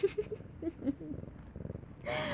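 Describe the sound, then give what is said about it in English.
A cat's low, rumbling purr pulses steadily and softly in a continuous rhythm. “Such a good cat.”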